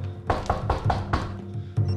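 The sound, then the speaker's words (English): Firm knocking by a policeman on a front door, a quick even run of sharp raps, then a short pause and one more solid knock, each hit crisp and hollow over a faint low hum. “A policeman knocks at the front door.”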